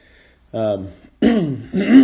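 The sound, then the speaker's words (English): Throat clearing after breathing in pollen and sawdust: a few rough, voiced rasps in short bursts, the second and third close together and louder than the first. “I sucked down a lot of pollen and sawdust yesterday, so clearing my throat a bit today.”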